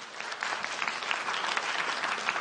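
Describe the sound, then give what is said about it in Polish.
Festival audience applause for a member of a film crew, a dense and steady wash of clapping that keeps an even level without a break. “Wielkie brawa dla Mikołaja.”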